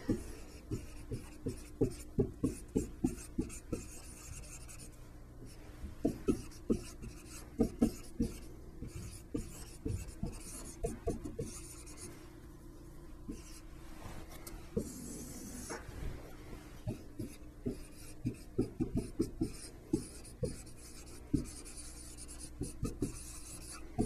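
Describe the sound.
Pen writing by hand as an augmented matrix is set out for a Gauss-Jordan row reduction example: many quick scratchy strokes in irregular clusters with short pauses, quiet and unaccompanied by speech.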